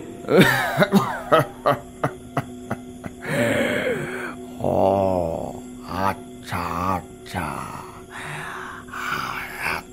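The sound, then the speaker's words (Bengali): An elderly man coughs in a rapid string of short, harsh bursts, then gives longer rasping, throaty sounds, heard alone without talk. “কথাটা শুনে বৃদ্ধ একটু কেশে নিয়ে বললেন”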